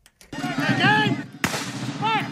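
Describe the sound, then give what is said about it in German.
Heavy cannon booms at a historical battle reenactment on a forest clearing in a national park, with powder smoke drifting. A couple of abrupt, deep blasts land under loud, continuous voices, each followed by rumbling low-end noise. “Kanonenschläge donnern über die Lichtung im Nationalpark von Vincennes, Indiana. Pulverdampf verschleiert den Zuschauern teilweise die Sicht.”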